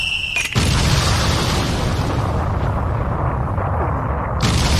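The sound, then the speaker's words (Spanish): Cannons firing and explosions in a video game form a dense, continuous booming roar. A short break comes near the start, then a loud burst kicks off an unbroken barrage that runs to the end. “Le tiraron, le empezó a explotar el tema porque estaban todos los cañones.”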